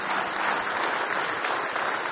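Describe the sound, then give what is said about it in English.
A church audience claps their hands in praise during a morning service. The clapping is dense and steady, holding at an even loudness for the whole stretch without a break. “Give Him one more hand clap of praise if you love Him this morning.”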